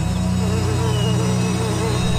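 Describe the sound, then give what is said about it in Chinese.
A dense, unbroken buzzing of many honeybees pouring out of their hives to gather nectar among summer flowers. The drone is even and steady throughout, with no pause. “勤劳的蜜蜂便倾巢而出，在花丛中忙碌地采集花蜜。”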